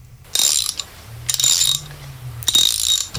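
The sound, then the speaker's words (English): A ratchet wrench clicks in a sound-guessing game, in about three short bursts of rapid, crisp ticks separated by brief pauses, loud and alone. “That's what I was looking for was a ratchet”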